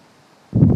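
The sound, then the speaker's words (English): Wind buffets an outdoor microphone in a single short, loud, low rumbling gust that rises suddenly after a quiet stretch and fades near the end. “Big apologies if all you can hear now is the wind.”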